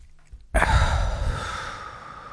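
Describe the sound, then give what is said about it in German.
A deep, relaxed breath during a guided relaxation exercise, heard as a soft breathy rush that starts suddenly and fades slowly over about two seconds. No one speaks. “Und jetzt kannst du ganz entspannt einmal tief ein- und ausatmen.”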